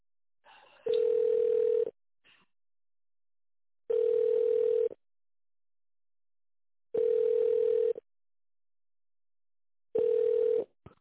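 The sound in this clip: A telephone ringback tone plays while a call is being connected: four even, mid-pitched beeps, each about a second long, separated by regular, longer silences.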